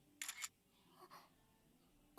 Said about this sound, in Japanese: 私の写真を撮られたのですか？